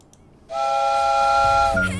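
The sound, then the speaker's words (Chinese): A train whistle sounds as the train is about to depart: one sustained, bright, steady blast cuts in sharply and holds for over a second, then gives way to a lower tone at the end. “本次列车马上就要出发了，没有报名上车的朋友请抓紧时间。”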